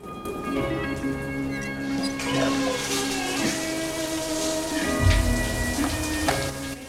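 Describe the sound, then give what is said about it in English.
Heavy rain buckets down at night beside a porch, a steady, dense hiss of drops and splashes that stays fairly even throughout, with a brief deeper surge near the end. “rain buckets down from the night sky”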